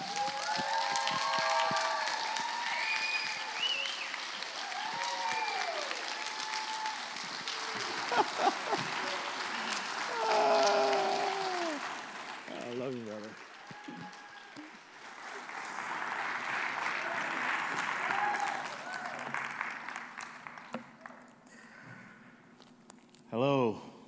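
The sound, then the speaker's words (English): An audience applauds in a standing ovation welcoming a guest, with dense, steady clapping and shouting voices mixed in for the whole stretch. “So, would you please do a standing ovation”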